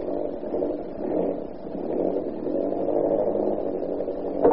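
A propeller airplane engine starts for take-off without warming up, producing a steady, rough, mid-pitched drone that wavers slightly and ends with a brief louder clatter.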